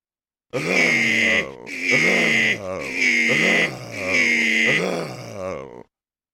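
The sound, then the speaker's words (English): Voices imitate the grunts of two people hugging very hard, producing a run of long, strained, throaty groans and grunts, loud and back to back, with brief breaks between them. “This is the sound of their hug.”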